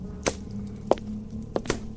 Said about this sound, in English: Meat as rare as this retains its buttery, fleshy texture, its delicate softness. Come, let me cut it for you.